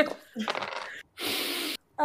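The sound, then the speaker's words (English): Dice are thrown during a tabletop game, making a short clattering rattle of hard little objects. Brief bursts of noise are split by short silences, and a voice is briefly heard. “I'm throwing out my dice.”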